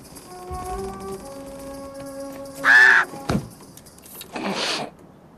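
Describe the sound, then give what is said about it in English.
Bird calling near the cab of a snowplow, two loud harsh rasping caws separated by a pause, with a sharp click between them and a faint steady hum throughout. “Hello, birdie. Pretty birdie. Yes, you're a pretty birdie.”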